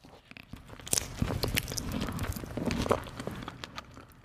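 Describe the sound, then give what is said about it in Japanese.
Chewing of a strawberry-flavored pink rice cake topped with a red strawberry, made from Kinme rice and glutinous rice: faint, irregular moist bites and soft crunches repeating many times. “じゃあイチゴ味ピンク色のものをいただきます”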